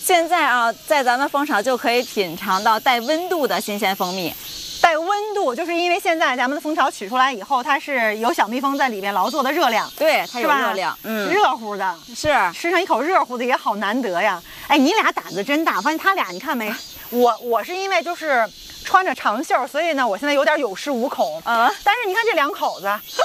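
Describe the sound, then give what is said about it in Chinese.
Honeybee swarm buzzing and fanning its wings inside a hive of tens of thousands of bees, a steady hissing drone running beneath continuous talking. “听这声音， 这一群蜂里边有几万只小蜜蜂 啊！对， 它一直在扇动小翅膀”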